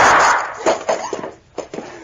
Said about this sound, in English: Yeah, I'm all right, but I wouldn't have been if you hadn't shot that gun out of her hand when you did.